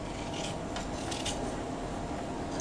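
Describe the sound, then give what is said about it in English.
Continuous scratchy rubbing of a child drawing on a surface, a steady dry rasp with slight swells, with no voices. “I'm going to do a drawing. That's it. You don't stand on that because you'll break it. You just draw on it”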